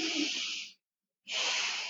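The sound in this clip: A deep breath in and out taken during a guided breathing moment: a long, airy inhale, a short silent pause, then an equally long hissing exhale, both fairly loud and with no other sound.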